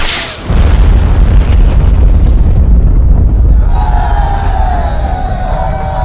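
An acetylene canister is shot and explodes: a heavy boom bursts in and becomes a long, loud, sustained rumble, and a wavering high tone rises over it later.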